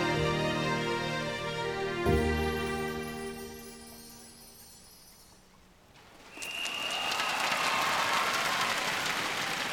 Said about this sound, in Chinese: 在这里借大家掌声，要多谢在片段里面演出的 Angelababy。